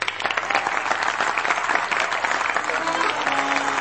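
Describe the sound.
An audience applauds to welcome a performer, with dense, steady clapping that stays loud from start to finish.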